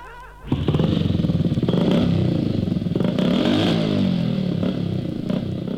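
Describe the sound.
Engine roar of a big Kawasaki motorcycle riding past, starting abruptly and holding loud and steady for about five seconds, with the motor's pitch swelling and easing near the middle.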